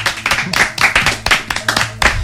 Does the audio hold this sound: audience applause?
yes